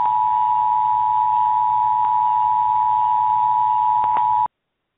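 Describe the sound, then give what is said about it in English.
An emergency broadcast system test alert tone: one loud, steady, unwavering high note that holds for about four and a half seconds, then cuts off abruptly into silence. “This is a test. This station is conducting a test of the emergency broadcast system.”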